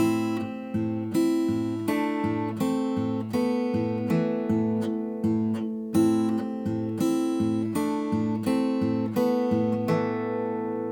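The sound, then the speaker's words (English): Guitar played slowly, with a thumb keeping a steady, evenly pulsing bass drone on the A string beneath a spooky melodic motif of ringing higher notes; no talk. “Let me go ahead and show you what he's playing on this guitar. I'll do it slowly, so if you want to play along, go ahead and play along. It sounds like this.”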